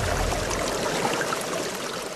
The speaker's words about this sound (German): soeben setze ich das Pumpwerk für die neue Wasserversorgung unseres Dorfes in Betrieb.